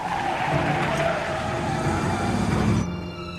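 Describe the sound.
Tires squeal and the engine roars as a car turns right at speed, a sustained, loud screech over engine noise that cuts off abruptly near the end.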